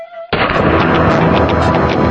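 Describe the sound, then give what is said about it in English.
Gunfire from an M16 rifle breaks in suddenly and runs as about two seconds of dense, loud, continuous rattling, with no voices over it. “Yeah, this is a legally registered M16 rifle.”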